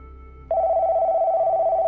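A telephone rings with an incoming call. Its steady, sustained electronic ring starts about a quarter of the way in and holds unbroken to the end over a low background hum.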